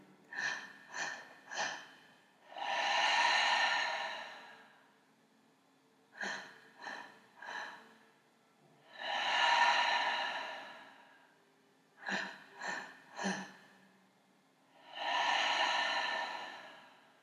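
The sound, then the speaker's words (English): Breathing exercise: three rounds, each of three short, sharp breaths followed by a long, rushing exhale, separated by quiet pauses. “So I want you to do your 3 sharp breaths. And as you breathe out, you're activating luminous white and the vibration of connection. Let's start now.”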